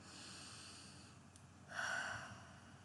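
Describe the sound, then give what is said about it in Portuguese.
A single deep breath, a soft hissing inhale that swells for about half a second out of faint background noise during a guided relaxation exercise, with no voices. “Respira fundo.”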